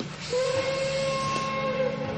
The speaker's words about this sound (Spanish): Pues que salga el tren. Adelante, que salga el tren.